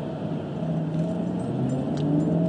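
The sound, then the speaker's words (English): A Bus Éireann route 221 bus drives past, giving a steady, fairly quiet engine drone with a whirring hum. There are no voices and no sharp events. “Here's another bus against me.”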